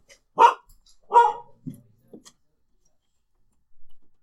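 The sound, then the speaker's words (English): A female dog barks in a few sharp, loud bursts, then gives quieter short sounds that fade to near silence before a final faint flurry. “And that's a dog. She's such an asshole. So, sorry. Dog went berserk.”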